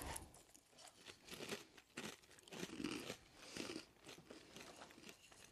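Crunching and chewing of pumpkin spice Cheerios, a limited-edition whole grain oat cereal, eaten by a person: a steady run of many dry, crisp bites and crunches with no talk over them.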